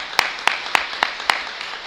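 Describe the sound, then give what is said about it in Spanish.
Audience clapping for a cadet sports team, heard as a quiet, even beat of five sharp hand claps spaced roughly a quarter second apart. “le voy a pedir a los protagonistas que se vengan aquí delante y que le podamos dar un aplauso previo a nuestro equipo cadete.”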